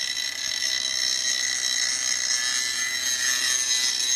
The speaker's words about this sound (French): Et oui, dans une station de ski, il faut parfois souder. Et le soudeur actuellement à l'œuvre est connu dans toute la vallée.